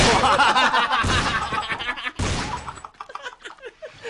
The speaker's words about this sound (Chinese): 嗱，有手枪啦， 听下先，听下手枪嘅声音。